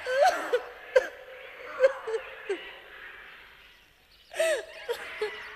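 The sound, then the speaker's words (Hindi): A woman cries at a considerable distance in a forest, several high, wavering wailing sobs in short bursts, then a pause before more sobs. “काफी दूरी पर स्त्री के रोने की आवाज आ रही थी।”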